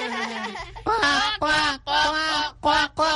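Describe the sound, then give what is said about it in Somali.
A person imitates their pet bird's call with several nasal, honking squawks in short bursts separated by brief pauses, fairly loud and alone. “maadaama aan jeclahay shimbirtaydana, bal aan mar kale codkeeda oo kale sameeyo.”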